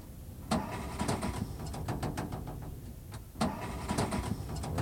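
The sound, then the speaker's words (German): A broken-down car's engine is cranked but fails to start: two rhythmic bursts of rapid starter whirring and sputtering, separated by a short pause. Each burst fades without the engine catching, over a low, constant rumble. “Wollen Sie mal die Haube aufmachen? Versuchen Sie mal anzulassen.”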